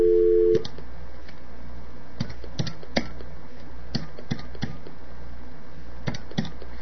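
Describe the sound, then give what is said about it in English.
Telephone call being dialed: a brief steady tone at the start, then many sharp, evenly spaced clicks of keys being pressed over a constant low hiss. “Now we are going to get Unreal on the line once again. No need to hear his number.”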